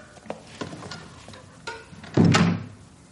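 A door in an apartment block opens and closes: a few light clicks and handle rattles, then a louder, fuller thud as it shuts.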